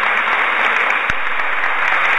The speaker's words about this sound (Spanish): Un aplauso al Señor.